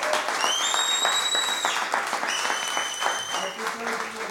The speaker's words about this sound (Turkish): Bir alkışla lütfen özellikle...